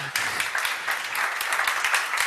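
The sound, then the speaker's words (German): An audience in a room claps in steady, dense applause that holds an even level from start to finish. “Einmal bitte Applaus für Moritz auch.”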